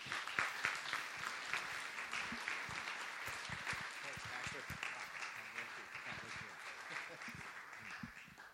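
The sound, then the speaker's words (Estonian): Warm audience applause welcoming the speakers, many hands clapping in a sustained, fairly faint stream of sharp claps that stays steady for several seconds. “Tervitame neid sooja aplausiga.”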